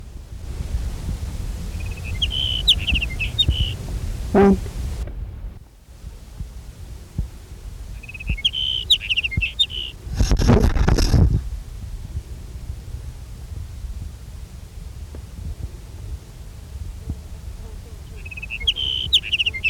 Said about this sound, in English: Here's sage sparrow number one.